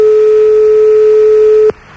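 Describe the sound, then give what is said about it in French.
A steady, single-pitched telephone tone sounds on the line after the other party hung up during a call. It holds loud and unbroken for nearly two seconds, then cuts off abruptly, leaving only faint line noise. “Apparemment, elle a raccroché. Je ne l'entends plus au téléphone.”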